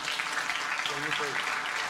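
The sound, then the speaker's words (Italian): Soft applause for the head of the Italian Civil Protection at a public event in Liguria: a faint, continuous patter of many hands, with a voice briefly heard in the middle. “E allora facciamo un applauso anche”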